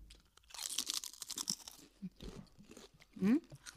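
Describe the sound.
Thick Spanish potato chips crunch between the teeth in a run of crisp, brittle bursts, followed by sparser, quieter chewing crunches.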